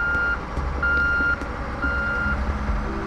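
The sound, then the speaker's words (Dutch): Reversing beeps from a truck leaving a museum in Amsterdam: three long, steady, even-pitched tones with gaps between them, sounding over a constant low engine rumble. “De vrachtwagen vertrekt vanaf het Stedelijk Museum in Amsterdam.”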